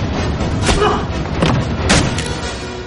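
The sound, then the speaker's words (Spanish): Heavy thuds from a James Bond film fight in a public restroom, with an elbow strike and a kick. A few dull, forceful impacts land at uneven intervals over a rumbling background. “Flashback de James Bond peleando con un hombre en un servicio público. Le golpea con el codo. Cae en el suelo, Bond se levanta y le patea.”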